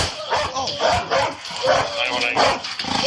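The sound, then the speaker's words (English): A police dog barks repeatedly during a police deployment, with loud, rough, uneven barks running continuously over muffled voices. “We're gonna send that dog in.”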